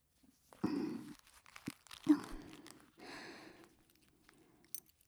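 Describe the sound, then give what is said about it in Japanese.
A zipper being pulled down in a few quiet, rasping, scratchy bursts separated by brief pauses. “じゃあそのチャック下ろしちゃいますね。”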